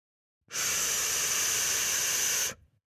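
Loud, steady hiss of static from a two-way radio, starting abruptly and holding evenly for about two seconds before cutting off sharply, with nothing else heard.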